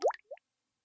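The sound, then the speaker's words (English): A splash as someone jumps into a pool of kefir: one loud, thick wet plop followed by a smaller, softer plop, then silence. “This means I can live my greatest dream to finally swim in a pool of kefir! I'll just climb the chalice. Gah, gah, gah and jumping.”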